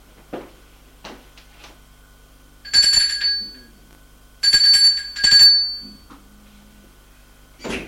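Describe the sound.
An evening doorbell rings at a home in three harsh, buzzing bursts, the first the longest, separated by short gaps. A few faint clicks and knocks come before and after the rings.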